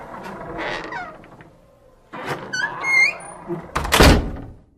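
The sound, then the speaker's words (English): A door opening in a fairy-tale scene, marked by a heavy thunk near the end, with several cat meows heard before it. “But the dwarf soon opened the door,”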